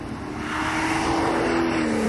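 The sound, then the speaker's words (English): Engine roar of a Triumph TR7 or TR8 sports car passing fast: a loud, continuous drone that swells in the first half second and then holds steady, its pitch sagging slightly as it goes by. “Another Triumph TR7. You can tell the cars that are sorted. Well, was it a TR8? Well, TR8 if you say that. Well, a 7 wouldn't be going that quick.”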